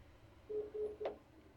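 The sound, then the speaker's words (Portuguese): A telephone call being dialed that fails to connect: three short, faint dialing tones in quick, even succession, with a brief burst on the last one. “Vamos ver se essa pessoa nos atende. Nem completa a ligação.”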